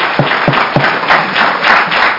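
Clapping at a committee hearing opens with a few sharp, separate claps. It then turns into a short, loud patter of applause from several people.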